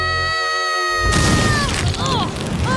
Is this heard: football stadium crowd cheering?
no